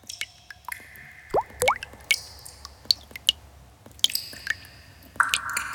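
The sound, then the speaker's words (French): Water drops dripping in a cave: many clear, bright plinks and plops fall at irregular intervals, some with quick upward pitch glides, over a faint, low background. “Dans la grotte, on n'entend que les gouttes d'eau.”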